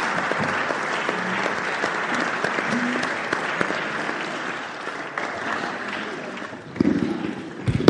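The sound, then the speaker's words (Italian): Commemorative applause from an audience: dense, steady clapping that holds throughout and swells briefly near the end. “Se vogliamo tributare un applauso di ricordo, credo che è giusto.”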